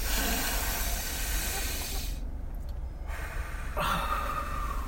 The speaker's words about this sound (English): Three deep breaths. Ready? Go.